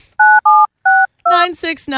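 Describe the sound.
Telephone keypad dialing tones: three short, steady beeps with brief gaps, followed by a person talking.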